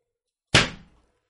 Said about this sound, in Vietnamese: đấm mạnh vào ghế